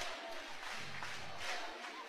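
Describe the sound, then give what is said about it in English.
Faint crowd roar from Sooners fans at a college softball game, a steady, soft wash of noise with no distinct claps. “Crowd is going nuts right now.”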